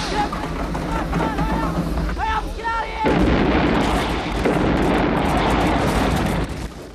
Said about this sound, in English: The bomber explodes in a huge orange fireball, shocking the onlookers.